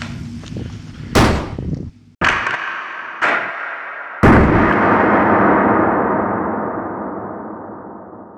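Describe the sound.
Gunfire in a tense chase: four loud, sharp bangs spaced about a second apart, each trailing a ringing decay, the last fading slowly over several seconds.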